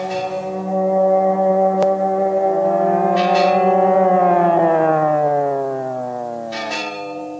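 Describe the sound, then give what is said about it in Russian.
A steady, droning siren sounds in fog, its pitch drifting slightly downward toward the end, while a few faint bell strikes ring out over it. “Сирена и колокола. Отчего в тумане все звуки кажутся такими”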